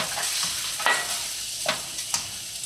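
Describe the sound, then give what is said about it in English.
Garlic stir-fried in a pan with a ladle, in moisture released from turkey, makes a steady bright sizzle broken by a few sharp ladle scrapes and stirs. “All right, dump in your garlic in. Stir fry that up with your ladle.”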